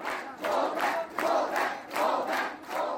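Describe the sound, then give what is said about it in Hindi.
Junior doctors at National Medical College chant a two-word 'Go back' slogan in loud unison. The rhythm is steady, with the crowd's shouts repeating in regular bursts separated by short gaps. “Go back का नारा national medical college के junior doctor लगा रहे हैं।”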